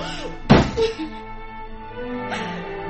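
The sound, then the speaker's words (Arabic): A door shut with one solid, heavy thunk followed by a couple of brief trailing knocks, set over a faint, steady tonal hum. “هديها قفل الباب ورا مره ثانيه.”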